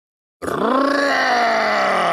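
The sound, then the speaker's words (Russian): A snow troll growls: after a short silence, one deep, rough, harmonic growl starts abruptly and holds loud and steady to the end. “Рычит снежный тролль, чуть ли не дыша нам в затылок.”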